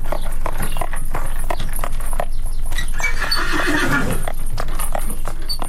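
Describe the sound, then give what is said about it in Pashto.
Shod horse hooves clip-clopping along a narrow street in an old European city, where horse-drawn carriages carry tourists. A dense, steady clatter of hoof strikes runs through the whole clip at a loud level. “د اروپا د زړو ښارونو په تنګو کوڅو کې د آس د نالونو ټک ټک سړی په خونو وختونو ته بیایي”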